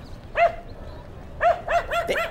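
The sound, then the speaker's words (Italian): Sharp, high-pitched yips from a small female dog that has sniffed something out: one bark, a pause, then a quick run of about four more, loud and without talk. “sembra che la tua cagnolina abbia scovato qualcosa. Quando fa così poi non la prendo più.”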